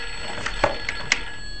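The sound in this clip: A mobile phone that has unexpectedly switched itself on gives off a few short, faint electronic tones with a steady hum underneath. The tones are brief and separate, with no voices.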